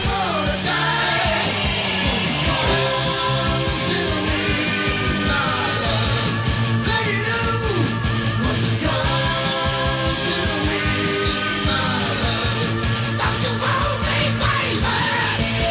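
A heavy metal singer lets out a high-pitched scream within a song. The yell rides loud over a dense, distorted band with steady drums, and the music stays thick and driving throughout.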